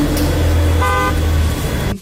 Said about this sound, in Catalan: Traffic is wild.